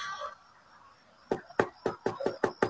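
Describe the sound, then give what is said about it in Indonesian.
Seven quick, sharp raps knock on a bedroom door at night. They come in an even, steady rhythm, each one crisp and distinct against a quiet background. “Sampai ada yang mengetuk pintu kamarku.”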